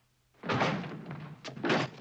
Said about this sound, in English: It's bolted, sir. Break it in.